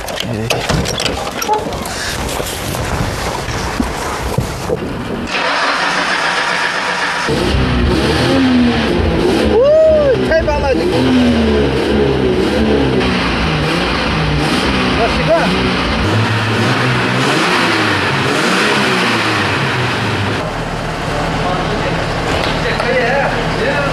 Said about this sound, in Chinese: 哎，我能不能上去塞一塞油门，听一下声音？ 发动，发动。